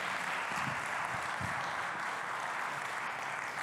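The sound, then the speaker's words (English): A church audience applauds the worship team after a song, with steady, dense clapping that holds at an even level throughout. “Can we hear it for the worship team one more time, guys? That was awesome.”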